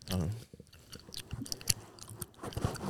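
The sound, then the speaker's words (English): Wet, smacking gum chewing close to the mic, the soft squishes and clicks coming in an irregular rhythm, with voices briefly heard around it. “Are you eating gum? Huh? Are you eating gum? Let me hear it.”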